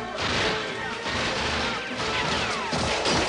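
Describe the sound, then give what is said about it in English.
Gunfire tears through a mansion, bullets shattering windows and riddling a piano, in a loud, dense, unbroken barrage of crashes, bangs and breaking glass lasting a few seconds. “Guests in the mansion duck for cover as bullets break the windows and riddle the piano.”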